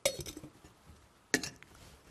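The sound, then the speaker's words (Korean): Ice goes into a cocktail shaker in two faint bursts of clinking and clattering, separated by a quiet pause. “얼음을 반드시 먼저 넣는 겁니다. 얼음을 먼저 넣어서 쉐이커 자체를 시원하게 하고 거기다가 이제 본인이 넣어야 할 재료들을 넣고”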